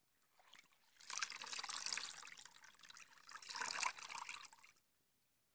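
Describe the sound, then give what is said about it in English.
Faint water trickling and splashing as a mother washes her child, the soft liquid gurgle rising in two gentle swells before falling quiet. “I'll just wash you so you can rest comfortably.”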